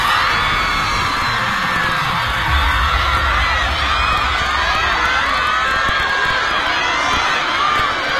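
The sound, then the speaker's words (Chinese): A crowd cheers and screams in a dense, continuous roar of many voices that holds at a steady, loud level from start to finish. “哇，这些欢呼尖叫是为我们俩而打 call 吗？”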